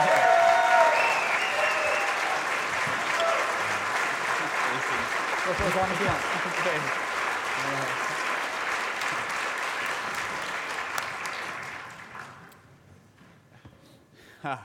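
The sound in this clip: A church audience applauds to welcome a pastor: dense, steady clapping from a large crowd with a few voices mixed in, holding strong for about twelve seconds and then fading quickly.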